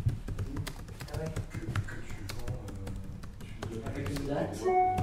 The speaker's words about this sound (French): Je cherchais justement la référence. Ça veut dire si je tape Atelier de création radiophonique.